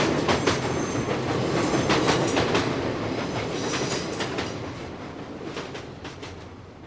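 A train arriving at a terminal station: a dense, steady rumble with rhythmic clattering of wheels over rail joints, gradually easing in loudness toward the end.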